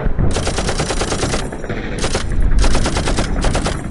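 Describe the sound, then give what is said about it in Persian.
Heavy enemy gunfire on the Shalamcheh battlefield: loud, dense machine-gun bursts rattling almost without pause, rapid shots overlapping into a continuous roar. “شلمچه زیر آتیش سنگین دشمن بود.”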